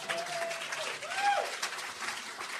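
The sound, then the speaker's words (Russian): An audience applauds a translator at a church gathering, a steady, even wash of clapping that holds at one level throughout, with a voice faintly audible over it. “Давайте похлопаем нашему переводчику.”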